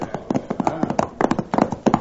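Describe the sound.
A horse's hooves clip-clop in a quick, uneven stream of many sharp hoof strikes, bunched into short clusters and fairly loud throughout.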